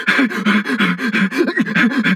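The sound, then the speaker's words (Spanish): A dog in a video game pants in quick, rhythmic breaths, loud and steady, with many short huffs running back to back and nothing else heard alongside. “¿Qué fue eso? ¡Un perro! ¡Sácalo de aquí!”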